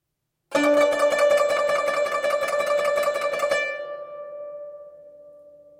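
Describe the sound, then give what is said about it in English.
Quick back-and-forth thumb plucking on a zheng, the rhythmic way of sustaining notes in older pieces: a dense burst of rapid plucks on one note for about three seconds, then a single lingering ringing tone that slowly fades. “A more rhythmic technique for sustaining notes is used in many older Zheng pieces. It involves a quick back and forth thumb motion. It sounds like this.”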